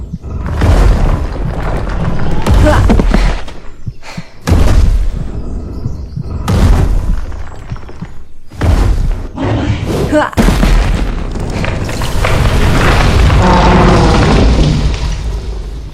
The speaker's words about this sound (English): what was it? It was a bang, like the whole world would collapse. Almost. That stupid troll banged our castle and the surrounding rocks with his fists